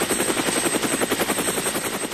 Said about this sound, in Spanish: Helicóptero.